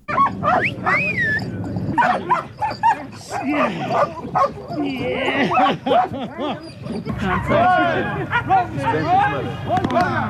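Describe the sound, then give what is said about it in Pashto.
Dogs at a mine-detection dog training centre yip, whimper and bark almost without pause, their shrill whines and yelps overlapping loudly throughout. “راپور د سپیو د روزنې د مرکز په ژغونو شروع کیږي.”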